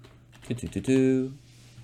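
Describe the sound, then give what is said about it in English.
A few quick taps on a computer keyboard come in a short burst, followed by a brief voice. “Star Wars, I'm gonna type it. I'm gonna search it.”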